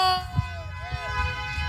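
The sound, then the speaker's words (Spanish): Car horns honk together from a crowd of drivers, giving overlapping sustained tones with a few sharper blasts, heard under a speaking voice. “aquí está la pitadera de toda la raza que quiere la calca de banda”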